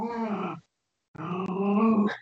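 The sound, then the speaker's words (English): A female dog growls in two sustained, throaty rumbling stretches separated by a short silent pause, the second longer and steadier than the first, ending with a brief rougher tail. “My dog didn't like that. She started growling.”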